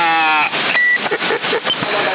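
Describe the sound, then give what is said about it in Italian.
A CB radio roger beep sounds as a short, steady electronic tone. It comes through narrow-band, noisy radio audio alongside transmitted chatter. “Adesso mettiamo il bip.”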